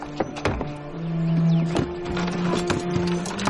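A horse-drawn carriage pulls away, with several sharp hoof clops and clattering knocks standing out above a sustained low tonal hum that runs under the whole stretch.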